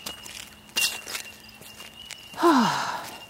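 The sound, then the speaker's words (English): Muddy shoes squelching on a walking track: a few soft, damp steps, then a louder wet squelch with a falling squeaky tone near the end. “I'm back at the start of the walking track now. Oh dear, my shoes are so muddy. But actually, that's another cool nature sound.”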